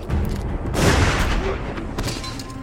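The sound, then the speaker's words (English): Shotgun blast fired at an axe-wielding man in a street: a single broad boom about a second in rises out of a dense, noisy background and fades within a fraction of a second. “He follows her, raising the axe, and Georgia shoots him with a shotgun.”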